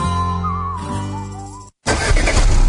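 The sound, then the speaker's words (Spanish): A JMC Grand Avenue pickup's Ford Puma 2.3 turbo diesel engine bursts into a loud, harsh roar after a moment of silence, following a stretch of music with a wavering tone. “Hay camionetas que sirven para el día a día y está la Grand Avenue de JMC que va más allá. Respaldada con garantía de por vida en su motor Ford Puma 2.3 Turbo Diesel.”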